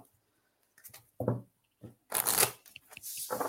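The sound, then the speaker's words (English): Tarot-style reading cards being shuffled, a few quick papery riffling bursts separated by brief pauses, the last ones longer and louder, with no talking. “so I'm just going to pull a couple more cards for you and then we'll see what we got.”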